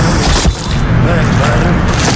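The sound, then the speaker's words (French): A single sharp, heavy thump of a captive bolt pistol, a cattle slaughter tool, fired in a tense film scene. The brief burst stands out against steady, dense low rumbling noise. “utilise un pistolet d'abattage. Un objet encore appelé aujourd'hui pistolet à projectiles captifs”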